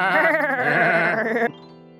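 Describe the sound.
Goat bleating: one long, loud, quavering bleat with a wavering tone that holds steady, then cuts off abruptly and leaves a faint tail.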